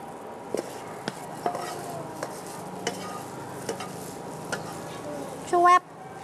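Stir-fried soy sauce noodles are scooped slowly from a pan, with a light sizzle under many small scrapes and taps of a utensil and a louder clatter near the end.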